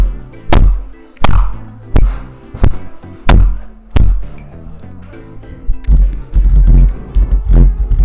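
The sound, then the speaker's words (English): A microphone ground against teeth gives off many sharp, heavy knocks and crunching thuds. The hits come loud and close at irregular intervals, with low scraping rumbles between them. “And that was me grinding the mic on my teeth.”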